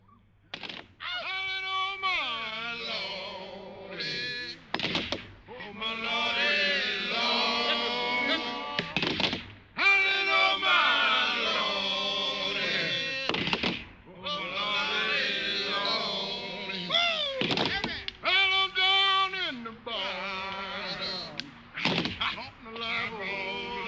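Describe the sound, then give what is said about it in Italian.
Axe blows of people chopping down trees, heard as a steady series of dull thuds under a piece sung by several voices. “Colpi che sentite sono i colpi d'ascia contro le piante che i negri stanno abbattendo.”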